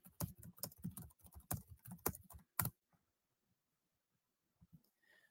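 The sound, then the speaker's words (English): Typing on a computer keyboard comes as a quick run of many sharp keystrokes over about two and a half seconds, followed by near silence with a couple of faint clicks. “Got to type to him since he can't hear me.”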